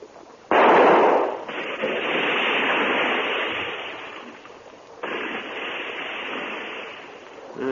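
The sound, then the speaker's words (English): Gunshot fired at a mamba snake: a loud, abrupt blast with a long, ringing tail, then a second, softer burst a few seconds later. “Yes, it's seen us. Well, I'll have to shoot. Keep the light steady.”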